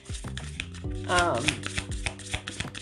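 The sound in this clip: Tarot cards are shuffled in a fast, papery riffle of many crisp taps and flutters, with a brief voiced exclamation rising over the middle of the shuffle.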